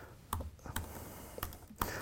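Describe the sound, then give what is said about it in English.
Typing on a computer keyboard while entering a URL: a few separate, sharp key taps at an irregular, unhurried pace over quiet background noise, with no voices. “type in the URL for your Azure functions okay.”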